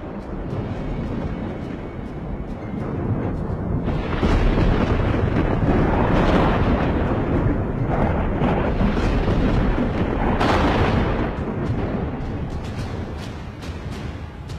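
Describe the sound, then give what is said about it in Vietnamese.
Thunder rumbling in a storm under dark clouds with lightning: a continuous, loud, low roaring rumble that swells near the middle and again toward the end, with wind-like noise throughout. “Sấm chớp bắt đầu vang lên, những tia chớp lập lòe trong mây, trông như những con lôi xà đáng sợ.”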